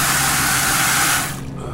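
Water is pumped from a utility truck's tank into a clear bucket, a loud, steady, hissing rush of spray that cuts off abruptly near the end, leaving a low residual hum.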